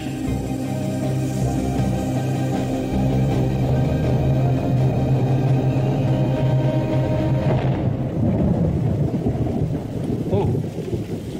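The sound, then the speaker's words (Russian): Thunder in a heavy rainstorm: a steady, dense hiss of rain throughout, with a deep rumbling roll of thunder swelling in the second half. “Нет, слышал гром. Это дурное предзнаменование. Брось ты, гром, дерево, скала.”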